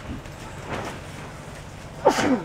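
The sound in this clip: A single sharp sneeze bursts out near the end, a brief loud blast after a stretch of quiet, low background sound.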